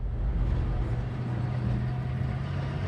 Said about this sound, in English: Two vehicles, one following the other along the uneven track across the open plain.